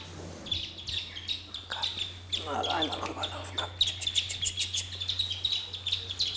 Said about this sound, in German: Deswegen scheuche ich jetzt die Küken mal rüber. Ja, kommt mal her. Die Zwerge sind 3 bis 6 Tage alt.